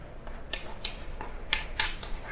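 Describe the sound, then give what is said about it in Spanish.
Handwriting during a university lecture: a series of short, scratchy, hissing strokes in an irregular rhythm, fairly faint, with no talking over them. “¿Por qué leo mientras escribo? Porque conozco el horror de mi letra, ¿sí?”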